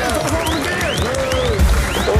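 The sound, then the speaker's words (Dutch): Applause from a crowd, mixed with cheering and several rising whistles. The clapping stays at a steady, fairly loud level throughout and swells slightly toward the end. “Luister goed, want dit applaus is speciaal voor jou.”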